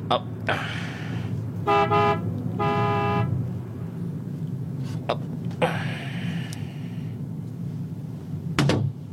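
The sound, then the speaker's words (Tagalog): Car horn honking in two short, steady toots over a continuous low car rumble, with a few other brief knocks later and no talk. “Businahan ko siya.”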